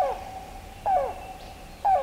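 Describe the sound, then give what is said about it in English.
Rain crow calling: three hollow, hoot-like calls with falling tails, spaced about a second apart and clear over quiet background hiss. “listen, listen, the rain crow, the water bearer's favorite bird.”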